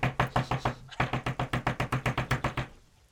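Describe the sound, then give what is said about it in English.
Knocking on a door: many sharp, even raps in a fast, steady rhythm. A short break comes after the first run, then a longer run continues before stopping. No one speaks. “go directly over to Fala's house and, like, knock on the door.”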